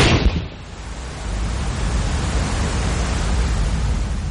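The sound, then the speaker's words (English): Rock exploding inside a sea cave: a sudden loud burst that gives way to a heavy, sustained roaring rumble lasting to the end. “A few minutes later, the rock explodes.”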